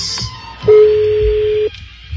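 A telephone tone sounds as a number is dialed: one steady, clear tone at a single pitch lasting about a second, with faint clicks and background noise before and after.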